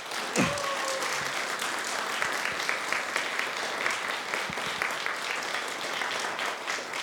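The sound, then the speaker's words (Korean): A church audience applauds to welcome a visiting missionary speaker, with dense, sustained clapping at an even level for the whole clip. “우리 선교사님 오실 때 큰 박수로 환영하기 원합니다.”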